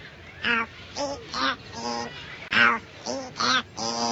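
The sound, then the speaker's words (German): A parrot talking: a string of short, raspy, nasal syllables with a buzzy voice-like tone, grouped into a few quick bursts with brief pauses between them. “Sehen's, jetzt hat er Ihnen den Gefallen getan und hat was geredet. Auch wenn der Papagei Lore heißt und nicht Pumuckl”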